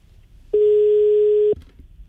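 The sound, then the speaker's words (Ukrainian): A telephone line tone sounds after a number is dialed on a call to an electrician: one steady, mid-pitched tone lasting about a second, loud and alone over a faint background. “Вже набрали його номер і поїхали.”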